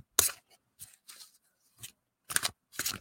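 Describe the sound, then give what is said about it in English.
Oversized fairy tarot cards being shuffled by hand: several short, papery riffling bursts separated by brief silences, faint and crisp, with no voices. “today I have tarot cards, and they're quite big cards. I'm not used to shuffling these huge cards.”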